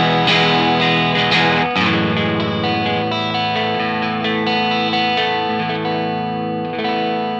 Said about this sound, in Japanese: ディストーション、オーバードライブっぽい音にしておいて、でそこからクリーンにした時に、このボリュームペダルを少し下げる。